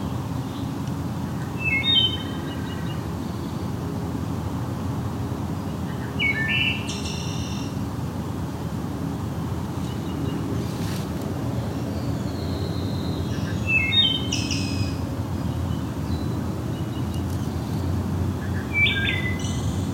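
Forest ambience under a dense, dark canopy of basswood, hemlock, maples and dead ash in a forested ravine. A steady low background carries intermittent high bird chirps and calls in several short bursts.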